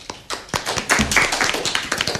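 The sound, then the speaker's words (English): Applause for a quiz contestant: a small audience claps in quick, uneven bursts of sharp, distinct hand strikes that start sparsely and thicken into a steady patter. No talking. “Let us all give a big round of applause for Divij.”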